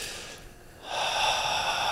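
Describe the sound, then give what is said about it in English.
A person imitates a deep breath, heard alone: a soft, airy rush of air that swells into a louder, sustained breath lasting about a second. “people are taking these really deep breaths, and it looks like, you know, it's kind of like,”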